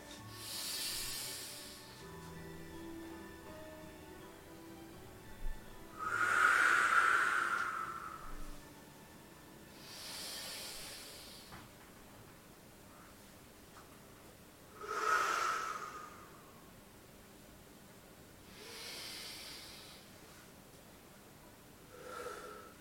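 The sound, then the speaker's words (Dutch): Slow, deep breaths drawn during a guided meditation come in a few soft, airy swells with long gaps between them. They are hushed and breathy, with no talking over them. “En we ademen weer in.”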